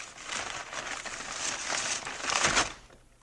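Wrapping paper crinkles as a birthday present is unwrapped, a faint, continuous rustling that swells toward the end before quickly fading.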